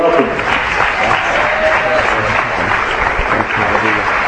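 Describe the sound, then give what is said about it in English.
A church audience at Living Faith Christian Church in Los Angeles applauds with dense, steady clapping that holds at an even, fairly loud level throughout. “Hallelujah. Give Jesus a hand.”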